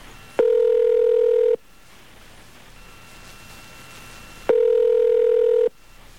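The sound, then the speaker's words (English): Telephone tones on a call to a prison phone line after pressing zero for the receptionist: two long, steady electronic tones, each lasting about a second, separated by a stretch of faint line hiss. “Enough of this. Let's dial 0. See if we can.”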